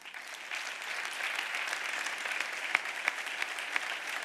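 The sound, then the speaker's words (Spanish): Applause from an audience at a 2019 gala, greeting pilots as they are presented: dense, steady clapping that starts after a short pause and holds at moderate loudness for about four seconds, with a few sharper individual claps near the end and no talk. “Y ahí están todos, fantásticos, para vuestro aplauso.”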